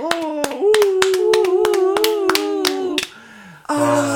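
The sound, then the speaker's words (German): Hand clapping as applause after a song ends, many sharp claps in an uneven run under a sustained voice, then a short lull and another voice. “Und dann ist das Lied zu Ende. Und du hörst den Applaus.”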